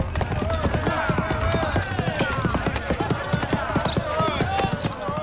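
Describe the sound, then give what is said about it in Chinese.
Rapid hoofbeats of a galloping horse-drawn carriage, a dense, steady run of clip-clops continuing throughout over a busy, tonal background. “一骑马车飞奔而来，车上坐着全公子。”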